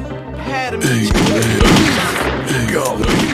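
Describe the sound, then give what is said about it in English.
Gunfire in the video game Grizzly Gulch, a few heavy booming shots and thuds under a voice shouting. “He got me! He got me! He shot me!”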